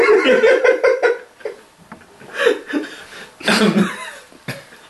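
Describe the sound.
Coughing from someone who swallowed tea the wrong way: several harsh, throaty bursts in clusters, a rapid run at the start, then further coughs spaced out after short pauses.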